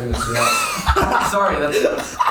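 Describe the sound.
Throat-clearing coughs as someone clears something from the throat, a few short rough bursts set among murmuring voices and a hint of chuckling.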